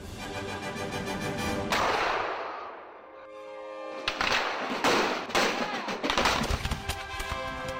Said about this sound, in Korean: 지금이다. 공격해라. 총을 쏴라. 총을 쏴라.